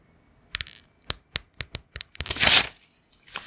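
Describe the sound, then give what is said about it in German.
Sheets of paper torn apart by hand: a run of short, crisp rips followed by one longer, louder rasping tear, then a final brief rip, with no talk over them. “Achtung, wir machen mal ein bisschen ASMR. Achtung. Oh, Blätter zerreißen.”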